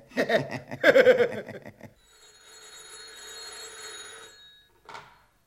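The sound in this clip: A telephone bell rings in one long, continuous ring after a stretch of lively talk, followed by a brief voice.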